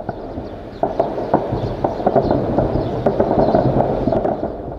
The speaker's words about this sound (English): residents of the capital city, Khartoum, woke to the sound of gunfire.